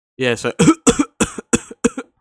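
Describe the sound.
Harsh, dry coughing from a person, six forceful coughs in quick succession, the first drawn out and more voiced, the rest short and clipped, heard alone without talk.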